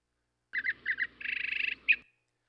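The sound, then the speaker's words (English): Zebra finch song: quick pairs of bright, nasal chirped syllables, then a rapid buzzing rattle and one sharp closing note, high-pitched and heard alone. “Yeah, that's a zebra finch, much simpler song.”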